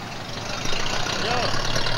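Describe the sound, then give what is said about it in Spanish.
Car engine idling as a landlord passes Clyde and Bonnie's cars: a steady, low rumbling hum that grows a little louder partway through and then holds even. “El casero se cruza con los coches de Clyde y Bonnie.”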